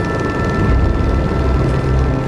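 Helicopter flying over a flooded river where floodwaters broke through, a steady low rotor drone with a dense rumbling wash, loud and continuous, with no voices.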